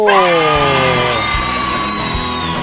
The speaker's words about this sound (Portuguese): Como é bom sempre ter uma plateia animada, sempre uma plateia alegre. Olha, quero guardar para sempre o calor desses aplausos.